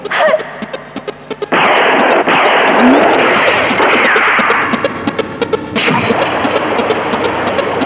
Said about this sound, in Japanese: 構わんから撃て。